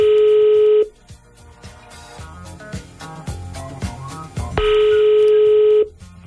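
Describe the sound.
A telephone rings with an incoming listener call on a morning radio show: two long, loud, steady electronic ring tones, with music playing in the gap between them.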